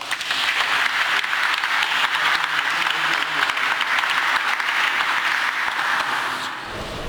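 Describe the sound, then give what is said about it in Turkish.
Audience applause at an exhibition opening on bookbinding and restoration in Istanbul, a loud, dense, sustained roar of clapping lasting about six and a half seconds before it thins and drops away at the end. “Alkışlarınızla.”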